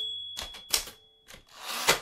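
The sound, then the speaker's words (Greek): Typewriter typing on the speaker's own machine: a few sparse, crisp mechanical clacks with short gaps between them, fairly quiet and with no voices. “Εδώ και λίγο καιρό έχω τη δική μου γραφομηχανή. Ποτέ ως τώρα δεν ήμουν κύριος μιας μηχανής.”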